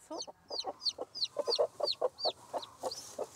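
A brooding hen sits on eggs that are close to hatching and gives a quick run of many soft, rhythmic clucks. The clucks are faint and evenly spaced, with no talk over them.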